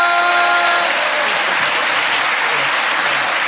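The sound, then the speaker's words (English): Audience applause for a comedian at the close of a stand-up set: loud, dense, steady clapping that fills the whole stretch without a break. “Ladies and gentlemen, give a massive round of applause.”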